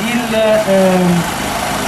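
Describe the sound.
A truck engine idles with a steady, broad rumble that runs through the whole clip while a voice speaks over it.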